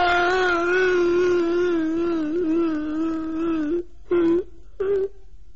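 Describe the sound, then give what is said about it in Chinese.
A man cries out loud, a long, sustained wailing moan voiced by a storyteller imitating weeping, followed by two short sobbing bursts separated by silence. “武大郎在床上倒着倒着，突然哭出声来了”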